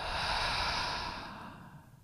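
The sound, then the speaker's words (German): A deep breath drawn in through the nose and let out through the mouth during a guided relaxation exercise: one long, soft, airy rush of breath that slowly fades, with no talking. “Zu Beginn lass uns dreimal tief ein- und ausatmen. Atme über die Nase ein, über den Mund aus.”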